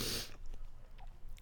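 A crunchy fruit is bitten and chewed: a loud, crisp crunch at the start gives way to a few quieter, moist chewing sounds.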